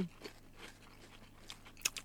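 Faint crunching of a firm wafer snack being chewed, with a few soft, irregular crisp bites at a quiet level and a slightly sharper crunch near the end.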